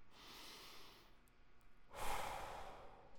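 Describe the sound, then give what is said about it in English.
One slow, deep breath is drawn softly in through the nose and released in a longer, louder, airy exhale through the mouth. The breathing is quiet and heard alone, without talk. “let's take a couple of deep breaths, shall we? Breathe in through your nose and out through your mouth.”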